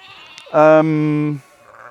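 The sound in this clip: A sheep gives a single loud, buzzy bleat lasting just under a second, with quiet surroundings before and after.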